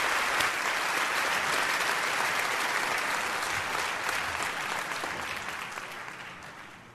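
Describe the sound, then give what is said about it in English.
An audience claps continuously to welcome a singer onto the stage at a worship gathering, a dense even wash of applause that stays steady for several seconds and then gradually tapers off. “I want you to put your hands together and welcome Steve Amerson as he comes to sing for us today. Steve, get on up here, brother.”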